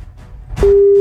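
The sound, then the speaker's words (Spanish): A telephone is readied for dialing: a short rustle and click as the line opens, then a loud, steady, low-pitched dial tone that holds to the end, with no voices. “pínchele ahí al teléfono, por favor. Vamos a marcar acá.”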